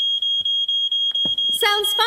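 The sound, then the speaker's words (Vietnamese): A newly installed smoke alarm being tested sounds a shrill, high, continuous tone broken by short regular gaps, loud and piercing, with a voice joining near the end. “Và tớ cũng lắp chuông báo cháy như cậu bảo rồi đấy Sam. Tuyệt. Giờ kiểm tra xem nó có hoạt động không nhá.”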